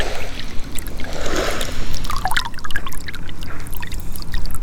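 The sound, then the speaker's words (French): Water trickling slowly into a salt-marsh evaporation pond as it is refilled, a steady bubbling, gurgling flow with small splashes throughout. “l'eau circule tout doucement. Remise en eau d'un œillet.”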